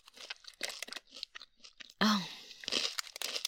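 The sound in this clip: Someone eats peanuts and little crackers, giving many sharp dry crunches and chewing sounds in an irregular rhythm, with one louder, denser crunch partway through.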